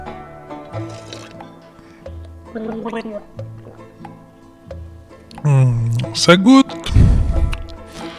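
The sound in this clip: Peaty Scotch whisky swished and slurped in the mouth during a tasting, with quieter vocal sounds before a loud, wet gurgling burst in the second half.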